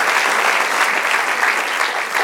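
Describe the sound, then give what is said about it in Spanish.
Church audience applauding during a service: dense, steady clapping that holds at an even, loud level for the whole stretch, with no voices standing out. “Denle aplauso, alábala, alábala, alábala.”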